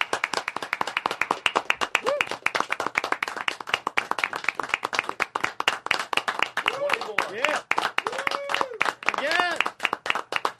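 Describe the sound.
An audience claps at a comedy show, a rapid, continuous patter of many hand claps that runs the whole time while people talk loudly over it.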